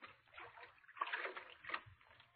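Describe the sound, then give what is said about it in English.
Someone wading into river water, heard as faint, irregular splashing and sloshing that comes in a few soft bursts with short pauses between them. “He's getting under the water.”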